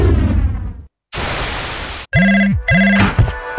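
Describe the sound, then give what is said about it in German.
A telephone rings for an incoming call with two warbling electronic ring bursts, following a loud burst of static hiss. “Ein Anruf.”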